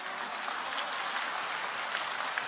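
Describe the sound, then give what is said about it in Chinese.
Applause from an audience at a Buddhist talk: a faint, steady, dense patter of many hands clapping that continues without a break and has no voices. “谢谢，第二次鼓掌。”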